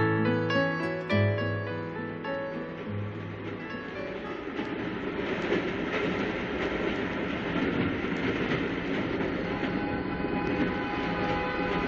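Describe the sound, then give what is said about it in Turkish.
An old locomotive's whistle sounds at the start in a few steady, harmonic blasts, then gives way to the continuous rumble and clatter of a moving train that carries on to the end. “Eski lokomotiflerin düdüğüne bayılırdım. Şimdikilerde o tat yok.”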